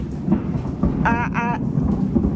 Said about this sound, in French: tá chovendo na minha terra. C'est l'orage là qui s'approche.